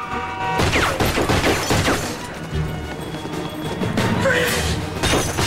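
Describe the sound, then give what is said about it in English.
A man crashing through a glass shop window in a film chase: a loud smash with breaking glass, followed by further crashing and rattling bursts that fade and then flare up again. “The attacker falls through a shop window and notices blood on his leather-gloved hand before dashing away again.”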